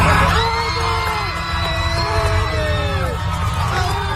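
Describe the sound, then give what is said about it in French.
Argentine airline passengers on a Spanish pilot's flight screaming with joy, a loud crowd of overlapping high voices whooping and cheering without pause. “C'est ce qu'a lancé au micro hier un pilote espagnol à ses passagers argentins qui ont, vous l'entendez, hurlé de joie.”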